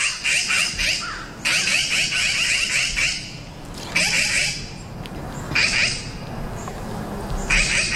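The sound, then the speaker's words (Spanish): Magpies gathered in a natural requiem call with harsh, rasping chatter in several loud bursts separated by short quieter gaps over a low background hum. “alguien además lo consiguió grabar y nosotros hemos traído ese sonido, el sonido de ese requiem natural de urracas.”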